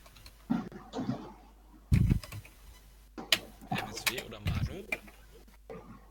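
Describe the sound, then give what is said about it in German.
Quick, irregular clicks of typing on a computer keyboard come in a few short bursts, mixed with low murmured talk. “Ich tippe gerade was anderes.”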